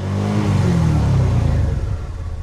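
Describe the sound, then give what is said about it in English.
A Kawasaki Teryx 4 side-by-side all-terrain vehicle's engine gives a loud, steady, low-pitched rumbling drone that revs and holds, then eases slightly toward the end. “The Kawasaki Terex 4 side-by-side all-terrain vehicle has plenty of power and can carry its operator and three passengers up steep hills and cruise along trails at speeds of 45 to 50 miles per hour.”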